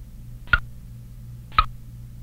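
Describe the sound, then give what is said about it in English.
A countdown timer ticks in a video game where objects are selected by typing: two crisp, sharp ticks about a second apart over a faint, steady low hum. “Okay, there's the countdown timer.”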